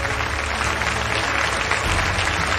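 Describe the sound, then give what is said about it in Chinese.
Audience applause welcomes a guest's family onto a stage. The clapping is dense and steady, filling the whole stretch at an even, fairly loud level. “我们掌声欢迎他们。”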